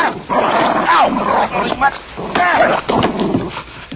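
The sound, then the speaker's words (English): A dog barks, yips and whimpers in a scene from a studio comedy film. Several sharp barks come in bursts, and people talk over them. “I'm going to kill that dog.”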